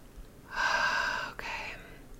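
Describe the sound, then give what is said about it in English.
A deep breath taken during a guided breathing pause, a soft, airy rush in two parts split by a brief click, with no talk over it. “Okay, nice deep breath here, please.”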